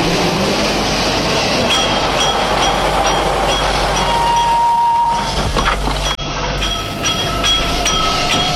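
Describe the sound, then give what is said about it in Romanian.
An express train arriving at a station platform with a loud, steady rumble of wheels and carriages, a brief high wheel squeal, and scattered metallic clinks throughout, with no voices. “Atențiune, atențiune! Rapidul de la Milano sosește pe linia 1.”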